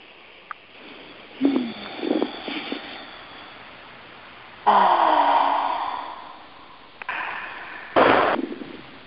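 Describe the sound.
A group takes slow deep breaths together, with a few long, breathy bursts of rushing air that swell and then fade. Quiet gaps separate the breaths.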